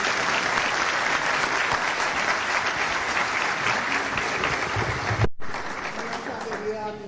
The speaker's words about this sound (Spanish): Un aplauso para el